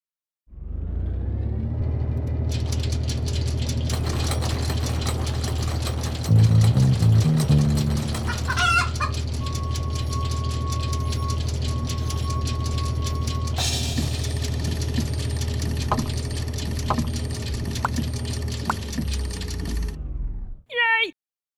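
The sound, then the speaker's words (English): A random number generator running, heard as a loud, dense rumbling and whirring sound effect with shifting tones and clattering textures that holds steady for about twenty seconds, then cuts off abruptly. “So, I will now run the random number generator.”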